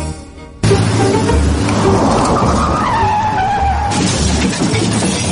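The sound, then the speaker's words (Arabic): A car headlight smashed by a kicked football, a sudden loud burst of crashing, scraping noise with a squealing tone through it, set against vehicle noise. “يا اخي انت ما تشوف كسرت فانوس السياره شوت شوت شوت الكوره أوه يا ساتر يا ولد كسرت الفانوس”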